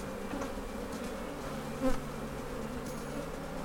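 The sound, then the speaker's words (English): Bees buzzing around a beehive, a dense steady drone of many wings with overlapping tones and a brief louder buzz as one passes close. “and then you go in there and deal with the bees, and then they're a lot more calm. They stay docile. I'm always looking for the queen”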